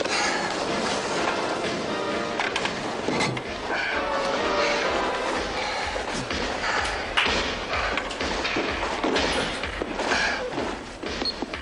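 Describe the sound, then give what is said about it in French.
A missile silo explodes in a film scene, heard as a continuous heavy rumble packed with many thuds and crashing impacts that stays loud and dense throughout. “Et voilà, ça explose, on adore ça. Écoutez bien ça. C'est parce qu'il y a un silo ici de missiles, il faut qu'il le détruise.”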